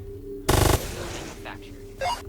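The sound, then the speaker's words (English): A grenade launcher fires in a video game. A loud, sharp burst of rapid pulses is followed moments later by a shorter second blast. “Bam! The grenade launcher. Yeah, you have to aim very good to shoot the thing you want to destroy.”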